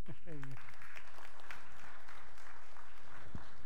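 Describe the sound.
A church audience applauds to welcome a guest preacher: steady, dense clapping that runs through the whole clip, with a brief voice at the start.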